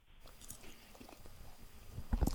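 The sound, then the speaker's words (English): Chewing and swallowing food: soft, moist mouth sounds with faint squishes and small crunches that grow louder and more distinct in the last half-second. “I'm swallowing some food here right now.”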